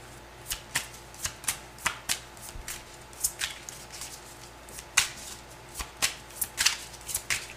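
Tarot cards are shuffled in many sharp, papery snaps and riffles, falling in a loose, fairly regular rhythm of crisp clicks, clear and alone with no talking.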